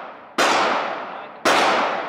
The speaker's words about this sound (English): All right, that gun is now loaded. You have three shots.